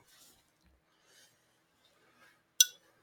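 A can of Pelican Brewing Pilsner beer is cracked open with a single sharp, crisp pop and hiss, coming after a few faint rustles and handling noises in near silence.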